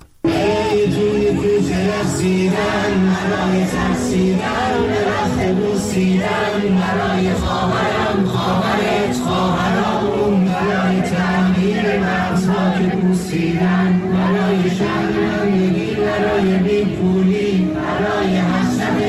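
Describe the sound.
Crowds chanting a protest song in the streets of Iran and other countries, a dense, steady roar of many voices shouting together without pause for the whole stretch.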